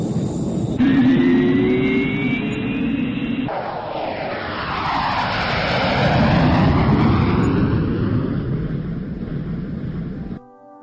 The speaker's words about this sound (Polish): załoga niebolotu, jesteśmy na pasie startowym. Prosimy o zgodę na lot. Tu wieża w Toruniu. Zezwalam. Życzę udanego lotu.